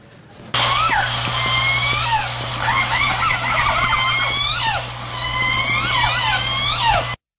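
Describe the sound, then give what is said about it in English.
An orca pod's calls recorded on an underwater hydrophone: many overlapping squeals and whistles sweep up and down alongside buzzy pulsed calls, all over a steady low hum. The calls start abruptly and continue without pause. “Of course, that was a sampling of the language of orcas. Specifically, it was from the J-Pod.”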